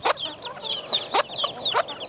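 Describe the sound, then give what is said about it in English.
Silkie chickens and small brown chicks clucking together: repeated low, throaty clucks mixed with many quick, high peeping chirps, busy and uneven throughout, with no voices. “Chicks around you now, and four silkies, the white fluffy chickens, and a bunch of little brown ones.”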